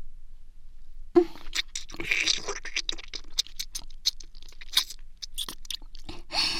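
Crunching and chewing from someone eating: a dense run of crisp, crackly bites and wet mouth noises that continues steadily throughout, with no talking.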